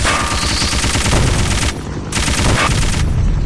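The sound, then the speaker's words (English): Machine gun fire in a video game: dense, rapid, sustained bursts of loud gunfire, broken by two brief pauses. “he's shooting a machine gun at me.”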